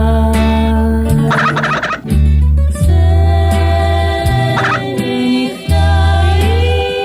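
Loud gobbling of birds, like turkeys, in repeated warbling bursts that continue throughout, with steady harmonic tones shifting in pitch between calls and no talk.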